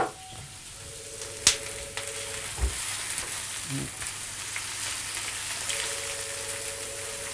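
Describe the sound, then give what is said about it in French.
Small bacon lardons sizzle in a frying pan with a soft, continuous crackle, broken by a few sharp clicks and knocks. “Et je vais mettre mes petits lardons”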